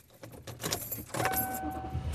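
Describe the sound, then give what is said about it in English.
Car interior noise while driving home, a steady low road and engine rumble that grows louder midway, with a thin high tone and some jangling of keys. “And I am driving home.”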